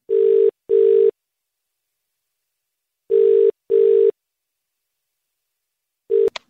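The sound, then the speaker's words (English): Phone line ringing out after a number is dialled: two pairs of steady mid-pitched tone bursts separated by silence, then a third tone cut short by a sharp click as the call is answered. “You got the number ready? I've got the number. Let's dial it. Okay, push the button.”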